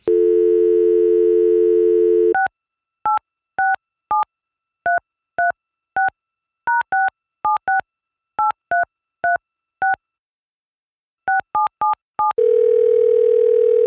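A steady telephone dial tone, then many short touch-tone beeps as a voicemail number is keyed in an uneven rhythm. After a pause come a few final keys, and another steady tone ends it.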